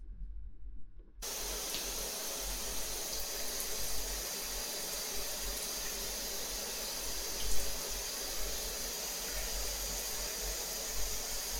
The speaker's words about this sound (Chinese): 来，我们来冲水